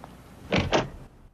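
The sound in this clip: A door opens in a dance academy hallway with two quick, loud mechanical clunks close together, followed by near silence.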